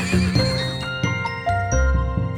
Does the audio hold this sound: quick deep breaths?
no